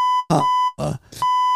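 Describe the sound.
A steady, high-pitched censor bleep tone hides a spoken word. It runs almost without a break, alternating with short bursts of loud, emphatic speech.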